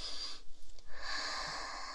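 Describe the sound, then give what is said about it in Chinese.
A deep sniff as someone breathes in a scent through the nose with their head buried in it. Soft, airy inhaling noise, faint overall, with a brief lull midway before the breath resumes. “在你的鼻子下面闻一闻。对，把头埋在里面深呼吸闻”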